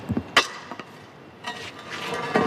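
A metal manhole cover is pushed with a long tool over cobblestones on a street in central Rome early in the morning, with a few sharp clanks and then a rough, grinding scrape.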